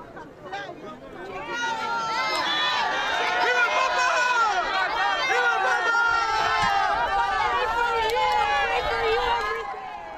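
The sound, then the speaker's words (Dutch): Large crowd gathered in St. Peter's Square to greet the Pope: a dense, steady swell of many overlapping voices and calls that builds at the start, holds loud, then eases near the end. “Opnieuw vele mensen die naar het Sint-Pietersplein gekomen zijn om de Heilige Vader te begroeten, te zien, te horen, te beluisteren.”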